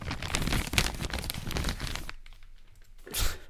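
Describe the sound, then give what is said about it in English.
An envelope of sticker packs is handled, giving crisp paper crinkling and tearing for about two seconds, then a short quiet gap before one more loud crinkle. “It's an envelope of sticker packs.”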